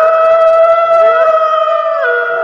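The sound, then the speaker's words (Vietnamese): A man's loud, sustained howl while running, echoing through mountain forests. It is one long, continuous cry with a steady tone and a couple of slight pitch shifts, staying strong from start to finish. “Tiếng hú vang vọng liên hồi, quẩn quanh giữa núi rừng trùng điệp.”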